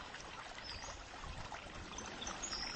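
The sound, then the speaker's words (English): Water gurgles softly, a faint, continuous trickling babble with a gentle, even flow. “And we listen to the gurgling of the water”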